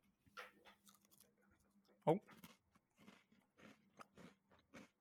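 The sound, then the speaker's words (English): A single sharp crunchy bite into a large cheddar cheese cracker snack stands out near the middle, amid ongoing talk before and after. “Okay, now I'm going to eat the big cheddar.”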